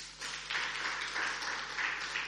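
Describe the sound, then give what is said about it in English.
Church audience clapping for the worship team, a soft, steady patter of many hands that swells slightly after a quiet start and continues evenly to the end. “let's give a big hand clap to our worship team.”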